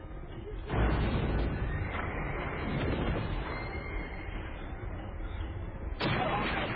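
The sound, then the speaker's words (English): Gunfire in a film battle scene where the attackers fire too soon against samurai: a dense, continuous roar of shots and blasts, with a sharp burst at the start and another near the end. “Then, of course, the notion that they fire too soon, giving the samurai the edge that they needed, allows what next happens, which is essentially just a slaughter.”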